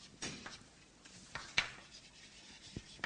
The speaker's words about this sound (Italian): allora scrivo qui, secondo, scrivo autonomia individuale.